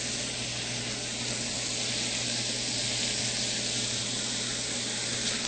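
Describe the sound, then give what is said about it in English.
Steady sizzle of onions, carrots and celery frying in a pot as potatoes are added and stirred in, a continuous even hiss with no talk. “So we'll just continue to stir them around. And now we can add the potatoes.”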